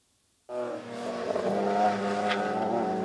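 Race car engines on a small track of about two kilometres near Padborg, used for a corporate driving event, burst in abruptly after a moment of silence and hold a loud, steady, buzzing roar with strong harmonic whine.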